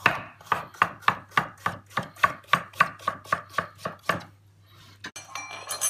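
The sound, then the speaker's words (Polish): A kitchen knife slices food into half-moon rounds for frying in a pan, producing many crisp, evenly spaced chops on a cutting board in a steady rhythm, followed by a few softer clattering sounds. “I tak normalnie położę z tej strony i kroję plasterki. Tak pół księżyc będzie nam na patelni.”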